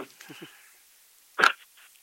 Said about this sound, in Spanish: Salud, te vino un estornudo justo.